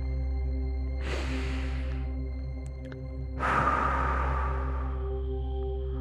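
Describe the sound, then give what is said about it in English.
Deep breaths during a meditation session, drawn in through the nose and let out through the mouth: a softer airy inhale followed by a longer, stronger exhale, both over a steady low hum, with no talk. “we will breathe in through the nose and out through the mouth. Breathe in deeply.”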